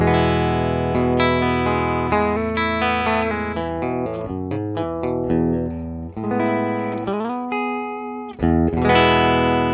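Clean electric guitar tone through a Fender Deluxe Reverb amp on its normal channel, with Boss pedals in the chain, playing a continuous phrase of ringing chords and single notes, bright and sustained, with no voices.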